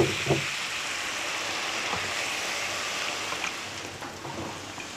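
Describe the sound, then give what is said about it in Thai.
Salted fried sweet potato pieces being rinsed in water: a faint, steady swish of moving water with a few soft splashes. “ล้างเอาเค็มออกนะคุณผู้ชมหน้าตามันก็จะได้แบบนี้สีสวยแล้วก็ยังคงความกรอบค่ะแต่ว่าไม่เค็มแล้ว”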